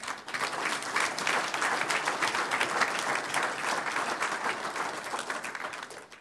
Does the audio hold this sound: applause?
yes

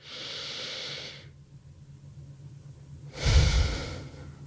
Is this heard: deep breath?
yes

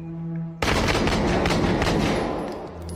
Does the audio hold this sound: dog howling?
no

